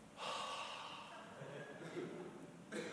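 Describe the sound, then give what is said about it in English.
A long breath blown out onto someone, as a priest did at early church baptisms: a soft, breathy hiss that lasts over two seconds, then a brief fresh puff at the very end. “the priest would actually breathe on that. Imagine if I was commissioning a soldier, enrolling a soldier, and I just went,”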